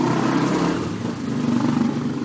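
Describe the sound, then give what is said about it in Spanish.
A motorcycle passes with a steady, fairly loud mid-pitched engine drone and broad road noise that holds throughout. “O ese muchacho que acaba de pasar en moto, por ejemplo”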